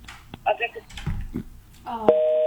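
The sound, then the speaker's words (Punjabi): Telephone line-disconnected tone on a call-in line: after some voice and clatter, a steady electronic tone starts abruptly near the end and holds at an even level to the close. “Line disconnect ਹੋ ਗਈ ਜੀ, ਔਰ ਦੁਬਾਰਾ ਕਰ ਲੈਣਾ phone ਜੀ”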